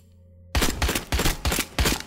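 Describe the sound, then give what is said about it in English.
Video game gunfire breaks out after a quiet start, hammering in four loud, rapid bursts with short gaps between them. “Why'd you shoot? You made blood, Chris. Why are you shooting people, Chris?”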